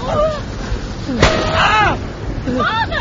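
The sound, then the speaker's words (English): A single sharp gunshot cracks out once, fired at an animal, among strained voices of people speaking before and after the blast. “Stand aside, daughter. Stand aside, and I will finish off this animal. No, don't shoot again.”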